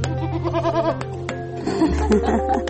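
Goats bleating during hand-milking, a few wavering, nasal bleats that overlap one another at a moderate level, with a low rumble and rustling in the background.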